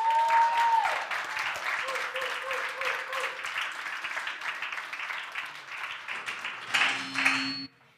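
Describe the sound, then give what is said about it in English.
Audience applause welcoming a speaker: steady, dense clapping with some cheering voices mixed in, cutting off abruptly at the end. “give a CSF welcome to Megan Hancock.”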